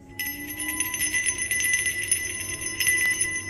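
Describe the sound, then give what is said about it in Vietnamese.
Small bells tinkle softly in the wind, a steady, continuous shimmer of high ringing tones over a low rushing background, with no voices. “Âm thanh vừa dứt thì gió nổi ù ù. Những quả chuông nhỏ kêu lên leng keng khẽ khẽ.”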